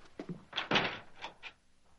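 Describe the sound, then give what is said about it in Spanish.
A house's street door opens as a visitor is let out, giving a short cluster of dull wooden thunks and rattles followed by a couple of softer knocks, with no speech. “Afectada la madre abre la puerta de la calle a su cliente.”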